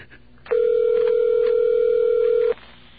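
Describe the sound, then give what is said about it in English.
Ringback tone on an outgoing phone call: a single steady, loud two-second tone heard alone, with faint line noise before and after. “Okay, we got a ring.”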